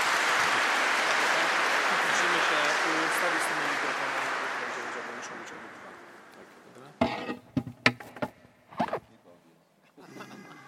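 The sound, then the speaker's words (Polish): Conference audience applauding to welcome the interpreter, a priest. Dense, steady clapping fills the first several seconds, then thins and fades out, and a voice speaks afterward. “Też można zaklaskać, tak.”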